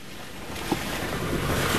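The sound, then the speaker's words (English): A vehicle driving up winding, muddy dirt roads in the mountains of northern Nepal, heard as a dense, steady wash of low rumble and hiss that stays even throughout, with no voices. “What you're hearing are the winding, dizzying dirt roads up the mountains of northern Nepal.”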